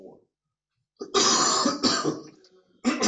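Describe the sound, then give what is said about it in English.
Harsh coughing and throat clearing from a person with a chesty cough: a few loud, rasping bursts in quick succession after a brief faint sound and a pause. “Excuse me, as I continue to cough, I have a lung up.”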